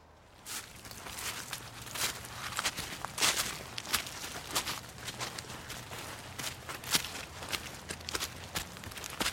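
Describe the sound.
Footsteps walking through a habitat of native plants: many soft, irregular crunching steps over about nine seconds, quiet and with no voices.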